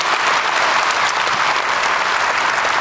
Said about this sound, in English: Let's give a hand also to our online audience around the world watching us and joining us.